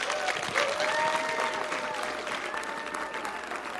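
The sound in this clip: A church audience on Easter Sunday stands and applauds to welcome a speaker: dense, continuous clapping, fairly faint, that holds steady before easing off slightly over the last seconds.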